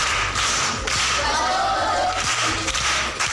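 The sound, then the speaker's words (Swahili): Applause for a primary school pupil who answered correctly: dense, continuous clapping that stays fairly loud and even from start to finish. “Amepata. Makofi kwa shangazi.”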